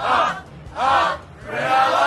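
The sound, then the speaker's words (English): Stadium crowd at a rugby league match at ANZ Stadium chanting a Cronulla Sharks supporters' chant: three loud, ringing sung bursts separated by short gaps, massed voices blending together. “This is the crowd singing Up, Up, Cronulla.”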